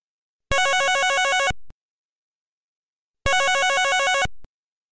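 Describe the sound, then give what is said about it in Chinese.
A mobile phone rings inside a car driving slowly along a remote mountain road: two loud bursts of warbling electronic ringtone, each about a second long, separated by silence, with no voices. “突然间他的手机就响起来”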